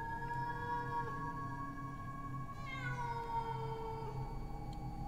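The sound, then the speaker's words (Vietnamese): A stray female cat in heat yowls at night in a cemetery. The cry is a faint, long, drawn-out wail whose pitch wavers and bends midway, heard over a steady low background hum. “Nghe cái tiếng mèo kêu trong đêm, mơ hồ lại nghĩ đến trẻ con nó khóc.”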